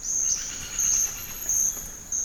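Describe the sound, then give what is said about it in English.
A chorus of insects and birds in a pristine, undisturbed rainforest: a shrill, steady insect trill with layered chirping, swelling and easing in a few loud pulses. “While a pristine, undisturbed rainforest sounds like this,”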